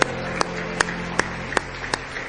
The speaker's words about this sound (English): Give him a big hand clap of praise.